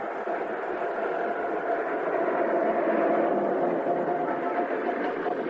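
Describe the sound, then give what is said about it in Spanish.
A bus engine drones as the vehicle drives away from a station along the road, a continuous low, even rumble that holds steady in loudness throughout, with no voices. “El vehículo se aleja por la carretera mientras el hombre lo mira atentamente.”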